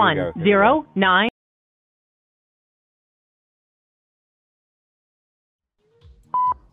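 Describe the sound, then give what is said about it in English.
A single short telephone keypad tone, a clear steady beep that comes after a brief burst of speech and a long stretch of silence, with a little low noise just before it. “I'm going to call one more time from the other machine.”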